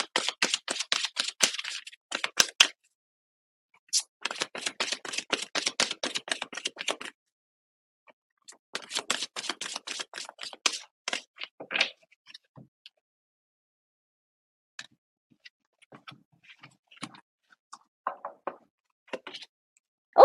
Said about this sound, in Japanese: 今私ちゃんとシャッフルしましたよ。